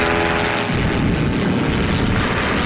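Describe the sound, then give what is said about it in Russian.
Loud, steady roar of a Messerschmitt warplane diving steeply toward an airfield in a wartime film scene. It is a dense, continuous engine roar without a clearly separate blast. “в нижней точке пике самолет сбрасывает бомбу”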